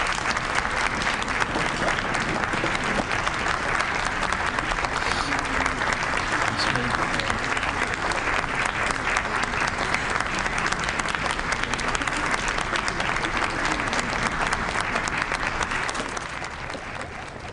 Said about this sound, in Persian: خواهش میکنم که به افتخارشون دست بزنید.